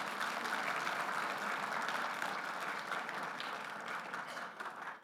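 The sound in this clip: Church audience applauding to congratulate worshippers who prayed for the first time, a faint, even wash of many hands clapping that holds steady and tapers off slightly at the end.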